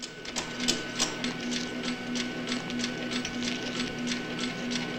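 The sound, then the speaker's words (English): Telecopier fax machine clunking and buzzing in an office, giving a steady mechanical buzz punctuated by many quick, regular clicks and taps at a moderate, even loudness. “as the machine, which is marked telecopier, clunks and buzzes.”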